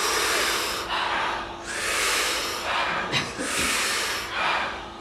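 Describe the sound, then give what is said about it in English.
Rhythmic power breathing through the mouth: big, forceful hissing inhales alternate with softer exhales in a steady repeating cycle, several breaths in a row and no talk. “So big power breath, soft exhale. We do it in rhythm, in unison, together. It sounds like this.”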